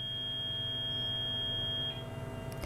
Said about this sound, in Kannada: Okay, ಕರೆ ಕಟ್ಟಾಗಿದೆ ಅಂತ ಅನಿಸುತ್ತೆ.